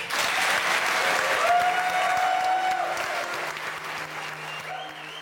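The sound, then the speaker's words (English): An audience at Cheltenham Science Festival applauds a panel with a full, even round of clapping that eases slightly toward the end. “I'd love you to give a big round of applause to our wonderful panel.”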